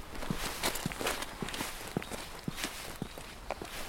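Footsteps walking down from a bridge near Eschede, a steady run of many soft, evenly paced steps at a relaxed rhythm, alone with no talk.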